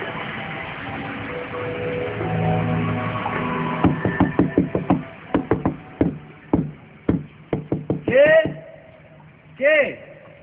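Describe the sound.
Knocking on a door at night: many sharp raps come in irregular bursts after a stretch of steady noise, and brief voices follow the knocks.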